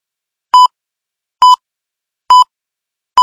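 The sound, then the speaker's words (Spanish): An hourly time signal marking the start of a new hour: four short, pure, mid-pitched beeps at even intervals, sounding alone. “Inicio de hora. Este sonido alerta que ha comenzado una nueva hora.”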